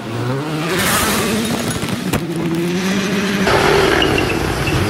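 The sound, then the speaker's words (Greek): Flat out in sixth gear through a corner at the Acropolis Rally, a rally car's engine roars loudly with its pitch creeping gradually upward, a single sharp crack partway through and a slight surge in loudness toward the end. “Είναι έτσι, είναι πατημένες έκτες σε στροφή.”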